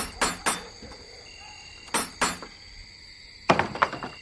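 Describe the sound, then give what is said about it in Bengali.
Knocks from a door knocker on the door of a sleepy one-storey house in a Shobhabazar lane: two quick raps, a pause, two more, then a tighter cluster of several raps, all fairly faint. “লোক দুটি শোভাবাজারের একটি গলিতে একটা ঘুম ধরা একতলা বাড়ির কড়া নাড়ল।”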